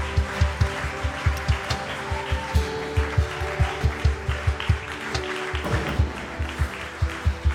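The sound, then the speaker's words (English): An audience claps to welcome a pastor at a church gathering, the clapping falling into a steady, even rhythm that continues throughout with no voices on top. “So come on, would you put your hands together? Give Pastor Gary a huge welcome as he brings the word.”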